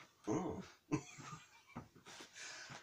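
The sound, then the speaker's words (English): A few harsh, faint coughs from a person recovering from tonsillitis, coming as separate rough bursts with breathy pauses between them. “excuse me. Cough it out.”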